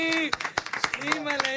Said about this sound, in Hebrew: אני רוצה שתרימו לו, תנו לו מחיאות כפיים לאיתי לוי!